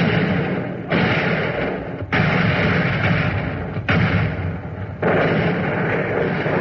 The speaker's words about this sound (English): Suddenly from the north, where the British divisions were landing, came flashes of fierce light. And enemy coastal guns were in action.